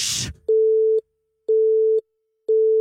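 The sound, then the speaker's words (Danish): A telephone busy signal follows a call attempt as three regular beeps of a steady, low, pure tone, each followed by an equal silence. The last beep is cut short, and a brief burst of noise comes before the first. “Det er som om, der er optaget.”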